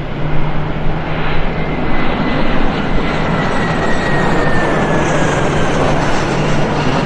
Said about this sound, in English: Zero Kilo 77 taxi to take short runway 3.